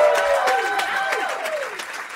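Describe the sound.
Applause and cheering from an audience at an intimate live concert, a dense, steady clatter of clapping with a few high whistles weaving through it, fading slightly toward the end.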